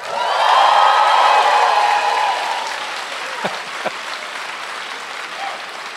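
An audience at the Apollo applauds and cheers in a loud, dense swell of clapping. It then fades to a quieter murmur with a couple of faint knocks.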